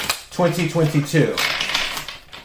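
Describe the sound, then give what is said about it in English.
Tarot cards slipping out of a deck and dropping, a few soft slaps and flicks that follow a short stretch of spoken voice. “Two cards keep on falling. You can't make this up.”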